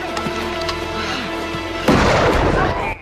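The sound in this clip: A single rifle shot fired at a man: one sudden, sharp boom breaks into a continuous background sound and rolls into a rumbling tail for about a second before it cuts off.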